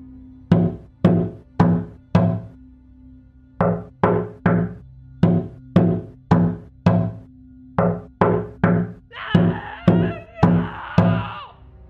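Loud knocking on a patio door: many sharp, heavy raps come in quick bursts of three to five, with short pauses between the groups, over a low steady hum.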